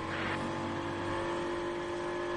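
An Aston Martin race car, driven by Marco Sorensen, runs along the circuit near the end of the back straight. Its engine gives a fairly faint, steady high-pitched drone.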